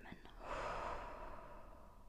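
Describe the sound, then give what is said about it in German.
A deep breath taken during a guided breathing exercise: one soft, airy breath that swells early, then slowly fades out over about two seconds. “Und nun nochmal tief einatmen. Kurz halten und ausatmen.”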